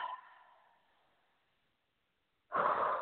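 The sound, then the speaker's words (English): A deep breath taken during a guided relaxation exercise: a faint breath trails off into about a second of silence, then a loud, sharp rush of breath follows. “Take a deep breath.”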